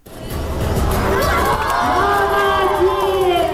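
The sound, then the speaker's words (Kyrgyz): Spectators cheer and shout at a girls' football match, a dense, continuous crowd roar with high young voices rising above it, staying loud from start to finish. “Алардын мындай чеберчилигин көрүүчүлөр дуулдата колдоп турушту.”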